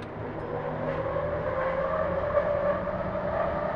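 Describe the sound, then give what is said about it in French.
A hyperloop train launching, as a sound effect: a steady, dense roar with a sustained mid-pitched whine running through it, continuous and even in loudness throughout, with no voices. “Ladies and gentlemen, the Hyperloop will start in few seconds. Are you ready? Put your belts.”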